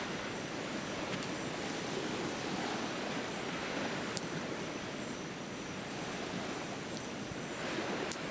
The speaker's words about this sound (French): La marée commence à redescendre